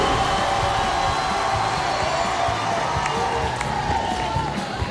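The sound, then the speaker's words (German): A crowd cheers and claps as a cue before a ska track. The roar is dense and continuous, holding an even level through the whole clip. “Sehr fein. Applaus.”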